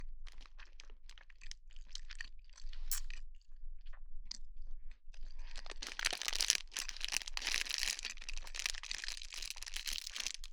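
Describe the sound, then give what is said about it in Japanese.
Food being chewed during a meal eaten in silence: a long run of many faint, crunchy, crinkly bites that grow denser and louder in the second half, with no talking. “黙って食べる。”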